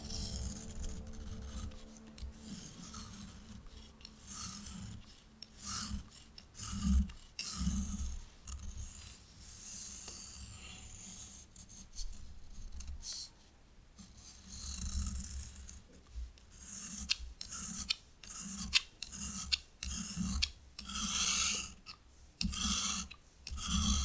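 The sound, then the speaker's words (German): Pencil sketching on paper as a head shape and hairstyle are drawn. Many faint, short, scratchy strokes come in an irregular rhythm with brief pauses between them. No one speaks. “mit dieser Kopfform starten und mit der Frisur. Und später zeichnen wir dann Augen, Nase und Mund ein. Es geht los. 15 Sekunden ungefähr.”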